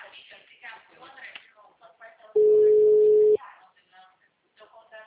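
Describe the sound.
Telephone ringback tone as an outgoing call rings: a single steady, mid-pitched beep lasting about a second, with people talking before and after it.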